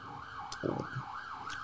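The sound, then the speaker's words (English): An ambulance siren wails in a slow, steady up-and-down sweep, rising and falling in a few even cycles at a faint level. “ambulance coming to get you.”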